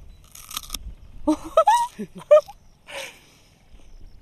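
Biting and chewing a raw, pungent round bulb after its root is pulled off by thumb: a few short, crisp crunches spaced apart, with brief vocal sounds between them over a quiet background.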